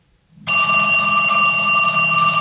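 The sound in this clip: A telephone rings in a radio drama scene, starting about half a second in as a bright, steady bell-like tone that continues unbroken to the end, alone with no talk.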